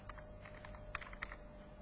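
Typing on a computer keyboard while entering a remote login command: a quick, uneven run of light, faint key clicks, with a couple of slightly sharper taps.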